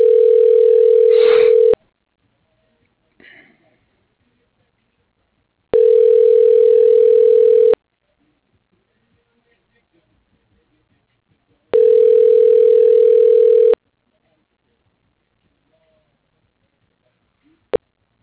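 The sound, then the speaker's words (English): Ringback tone on a telephone line during a call transfer: three even two-second bursts separated by silences of about four seconds, ending with a brief click. “Press please hold while I transfer your call.”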